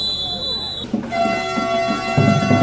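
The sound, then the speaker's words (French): Horn of a train leaving the station at Lubumbashi on the Congolese national railway, sustained and loud. A high whistling tone gives way after about a second to a lower, richer multi-tone blast over a rumbling background. “À 8 heures juste que ce train a quitté la gare de Lubumbashi.”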